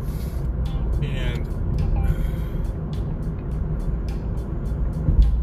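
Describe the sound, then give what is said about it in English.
A car drives through five o'clock rush-hour traffic with a constant low rumble of engine and road noise, steady throughout, with a faint hiss and scattered light clicks above it. “I'm driving during 5 o'clock rush hour”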